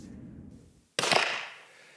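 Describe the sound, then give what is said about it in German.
A single sharp gunshot cracks out during live fire by members of a Brandenburg evidence-and-arrest police unit at the federal police shooting range in Hünfeld. The loud crack has a ringing tail that fades, after a low rumble and a brief hush. “Es ist laut, denn es wird scharf geschossen, in diesem Falle von Mitgliedern der Beweissicherungs- und Festnahmeeinheit aus Brandenburg und das auf dem Schießstand der Bundespolizei in Hünfeld.”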